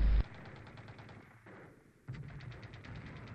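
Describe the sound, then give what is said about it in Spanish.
A grenade goes off in a Call of Duty 2 match: one heavy, abrupt boom at the start, then a quieter stretch before a renewed burst of rapid gunfire. “Buena granada, ahora caen dos hombres por parte de Prodi, que se ha cargado a Dranak y a Abejos.”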